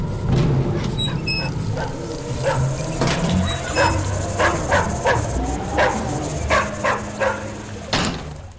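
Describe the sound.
A dog barks repeatedly in many short, sharp yaps in an irregular series, loud against a dense, busy background, with a few higher thin tones between some of the barks.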